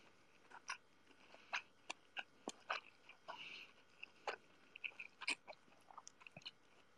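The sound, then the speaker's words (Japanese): Faint chewing of rice: many small, sharp, moist clicks and crunches in an irregular rhythm, quiet and alone with no talk. “なんか音がどんだけ入ってるかわかんないな。ごめんね、なんかご飯噛んでる音聞こえたら。”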